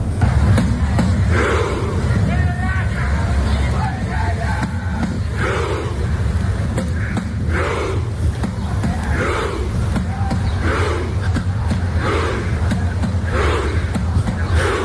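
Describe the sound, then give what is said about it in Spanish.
Norwegian football fans crowd the streets of Miami, chanting in loud, rhythmic bursts of shouting over a dense, continuous roar of voices that never lets up. “y así suenan las calles aquí en Miami estos días.”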